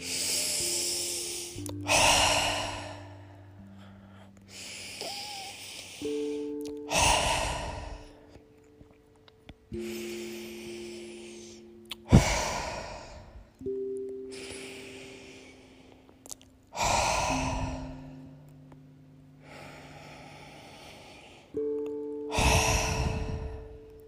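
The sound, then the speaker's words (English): Slow, deep breathing with about five full cycles of long inhales and heavy, sighing exhales, over soft sustained musical tones. “let's breathe deeply the breath of life. Let's do 10 beautiful breaths.”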